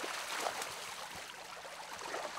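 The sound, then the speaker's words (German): Water flowing out through the opened drain of a carp pond as it is emptied for harvest, a faint, steady rushing hiss with no clear breaks. “Fischwirt André Albers öffnet den Abfluss von Teich 31. Das Wasser muss raus.”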